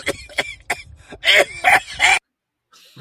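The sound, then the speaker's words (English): A man coughs and clears his throat in a quick series of harsh bursts: a few lighter hacks, then three louder, raspy coughs, followed by a brief pause and one faint final sound. “I'm glad he finally got rid of his cough, but it did actually manage to come back there at the end.”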